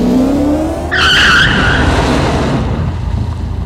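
A car accelerates on a street at full throttle, its engine revving upward under a loud, brief, high-pitched tyre screech, then a steady roar continues.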